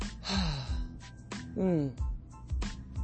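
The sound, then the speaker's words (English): Breathing during a guided exhale exercise: several audible, airy exhalations and breaths come in an uneven sequence, some with a slight voiced, sighing quality, at a moderate to soft level. “Let's exhale again.”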